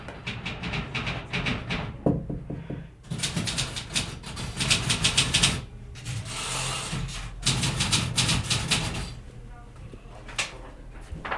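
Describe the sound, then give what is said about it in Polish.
Rapid clattering of keys hammered hard on an old keyboard machine, heard from a toilet, comes in dense bursts of sharp strikes separated by brief pauses. “Naparza na klawiaturze? Naparza. Nie miałam tam pójść, zobaczyć co u niego. Czyli uruchomił swoją machinę starą. Słychać z toalety.”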